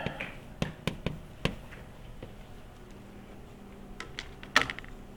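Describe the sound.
Calculator keys being pressed give a few crisp, light taps in quick succession, then a pause before a few more scattered presses.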